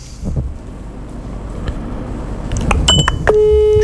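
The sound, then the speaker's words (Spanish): Electronic telephone beeps sound as a call is placed, followed by a steady, sustained tone. Low background noise runs underneath throughout. “Pará un poquito, lo voy a llamar, chicos. A ver cómo, a ver si me atiende, ¿no?”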